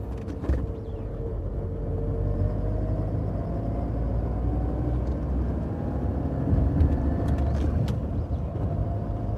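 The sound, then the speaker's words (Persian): Low, steady engine rumble of a military car that people are getting into. The noise stays even and moderately loud throughout, with no voices. “مسلم زن و بچه هاش رو سوار ماشین اردلان میکنه. آیسان با چادر و پوشیه همراه بچهش سوار ماشین نظامیه.”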